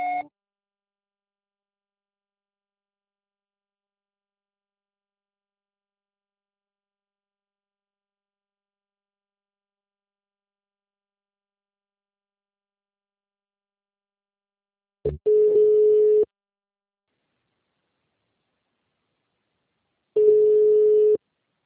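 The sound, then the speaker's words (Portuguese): Voicemail beep tones after a recorded message: two steady, mid-pitched electronic beeps, each about a second long, separated by several seconds of silence, with a brief tone blip at the very start. “Sua chamada está sendo encaminhada para a caixa postal e estará sujeita à cobrança após o sinal. Deixe seu recado.”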